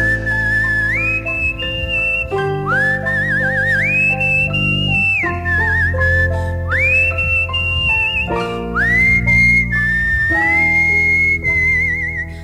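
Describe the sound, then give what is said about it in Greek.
Whistling, four rising tonal phrases that each glide upward and then hold a steady high note, bright and clear over sustained lower tones, with no talking. “Ωραίο σφυριγματάκι αυτό, πάρα πολύ ωραίο.”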